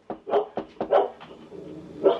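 A seeing eye dog barks in a quick series of short, mid-pitched barks, then gives one more bark after a brief pause.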